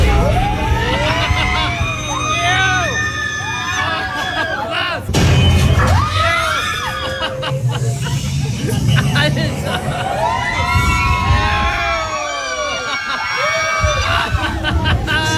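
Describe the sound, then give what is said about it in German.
Riders scream and laugh on the Tower of Terror free-fall ride, with many overlapping voices in shrill, wavering cries that rise and fall. The noise is loud and continuous, and a deeper crowd din runs underneath. “Und das geht noch ungefähr 2 Minuten so weiter. Also die Schreie, das bin nicht ich, sondern dieses Lachen im Hintergrund.”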